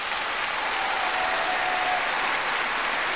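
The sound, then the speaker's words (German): Audience applause for a young performer at an orchestra concert with a conductor: a dense, steady wash of many clapping hands that holds evenly from start to finish without a break. “»Applaus für die junge Künstlerin!«”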